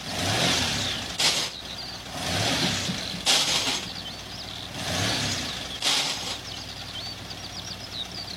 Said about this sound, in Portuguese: É, não tô conseguindo engatar nenhuma marcha.